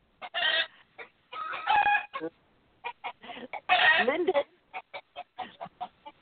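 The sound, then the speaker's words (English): A rooster crows and clucks in many short, harsh bursts, with one longer, louder crow partway through and brief gaps of quiet between the calls. “Is that your rooster, Linda?”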